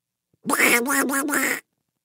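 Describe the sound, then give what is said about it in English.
A duck quacks on a farm at feeding time: a short, nasal run of quick, loud quacks lasting about a second, alone and with silence before and after. “One duck sees the new ducklings.”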